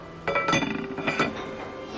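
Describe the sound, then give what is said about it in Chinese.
A metal padlock clinks as it locks the lid of a wild-mushroom hotpot in a Yunnan restaurant. A few bright metallic clinks and rattles ring out with a short ringing tail. They are fairly faint and there is no talking. “那这边的话还需要帮您锁一下锅啊。”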